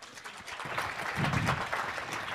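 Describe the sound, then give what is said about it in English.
Audience applause welcomes a faculty speaker at a clinical education session, a soft, steady patter of many hands clapping at a fairly low level. “Let's give her a big warm welcome.”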